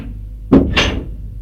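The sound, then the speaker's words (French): Door sounds as someone knocks on a door and enters: two short, separate impacts, the first low and dull, the second sharper and brighter, followed by quiet. “Arrivé au premier, elle frappe à une porte et entre.”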